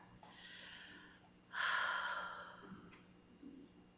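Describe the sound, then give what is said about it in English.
A deep breath: a soft, airy rush of air that swells into a fuller, louder breath midway and then eases off, quiet overall. “In the quiet of these moments, we still our minds, take a deep breath,”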